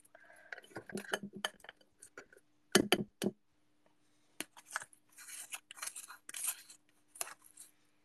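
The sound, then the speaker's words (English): Packed soil is scraped out of a small plant pot in short, irregular bursts of gritty scraping and light knocks, separated by brief quiet gaps. “Wow, a lot of soil packed in this small pot. I'm just scraping it out right now.”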